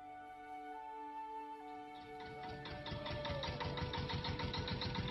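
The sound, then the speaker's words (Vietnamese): An old three-wheeled farm vehicle with a rusted, hole-ridden cargo bed runs its engine, a rapid steady chugging that grows louder after a couple of seconds, over sustained tonal sounds. “Chiếc xe công nông ba bánh cũ kỹ, thùng xe còn có những lỗ thủng do sắt hoen gì lâu năm dừng lại cách cây đa đầu làng Văn”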